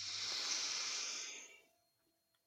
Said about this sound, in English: So just a soft inhale. And then go, ha. Very nice. And again, inhale.